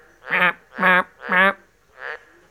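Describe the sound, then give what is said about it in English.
Green tree frog calling: four loud, nasal, duck-like croaks in an even rhythm, the last one noticeably fainter, with no talking during the calls. “Can you hear that green tree frog calling?”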